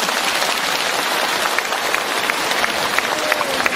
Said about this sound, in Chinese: 鼓掌。